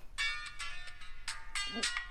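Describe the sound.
A mobile phone rings with a call from an unknown number in a drama scene, a bright electronic ringtone of several short, repeating tonal bursts with no talking.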